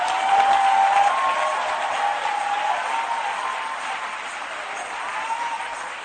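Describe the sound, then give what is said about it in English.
Audience applause at an evening preaching session: dense, steady clapping from many hands that holds loud throughout, easing slightly toward the end, with no voices over it. “Anybody clapping your hands, the blessing.”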